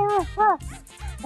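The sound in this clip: A human voice imitates a dog barking with a few short, arched, voiced yelps in quick succession over a low background hum.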